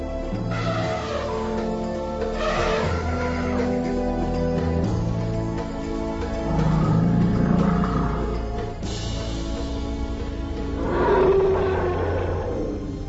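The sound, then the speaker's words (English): An elephant, the largest land animal, gives deep roaring rumbles full of low harmonic tones. The roar runs continuously and swells to louder peaks a few times over more than ten seconds, with no voices present. “Their huge bodies are almost the size of a one-story house. An elephant weighs approximately as much as 50 people.”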